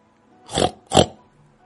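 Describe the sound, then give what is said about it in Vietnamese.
A black pig gives two short, harsh, rasping calls in quick succession, each swelling and fading, with silence before and after. “Tiếng heo kêu vẫn có thể nghe”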